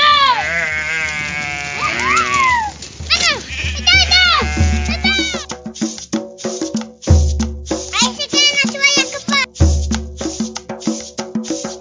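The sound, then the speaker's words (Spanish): Sheep and goats, including a ram and a billy goat, bleat as they are let out of their pen in rural Traslasierra. Many loud, wavering calls overlap and come in bursts, with people talking among them. “Sí, encerramos los chiquitos que hay y soltamos las ovejas. ¡Otra la el carnero! ¡Aquí el chivo!”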